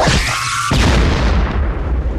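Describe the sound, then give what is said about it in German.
A gunshot fired inside a hut at a monster: one loud, heavy booming blast that rolls into a long, dense rumbling tail filling the rest of the moment. “Er zögerte keine Sekunde und schoss.”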